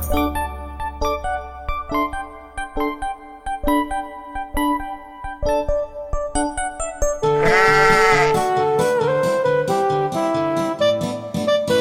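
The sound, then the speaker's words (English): A sheep bleats once, long and wavering, over a bouncy children's nursery-rhyme tune of plucked and keyed notes. The bleat rises above the music midway through, and the tune carries on beneath and after it. “Baba Black Sheep, have you any wool? Yes sir, 3 bags full.”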